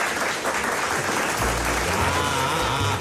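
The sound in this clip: Applause from an audience fills the whole stretch, a dense, even patter of clapping hands that stays at a steady level throughout.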